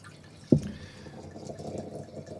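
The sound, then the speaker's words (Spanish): Wine aged six months in an oak barrel is poured into a glass, starting with a sharp clink and followed by a faint, steady liquid trickle. “entre 6 meses en barrica de roble, y lo vamos a probar ahora mismo. Que lo voy Por a favor, abrir. Lo vamos a abrir. Como saben los oyentes, lo hacemos en directo. Muy bien. Lo volcamos en la copa.”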